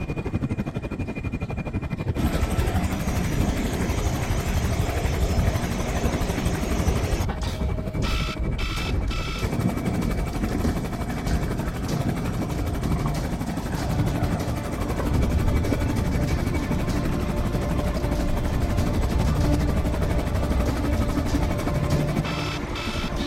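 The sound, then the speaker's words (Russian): A helicopter comes in to land, its engine and rotors making a loud, dense, unbroken roar with a mechanical rattle that holds steady for the whole stretch and never fades. “Вертолет идет на посадку.”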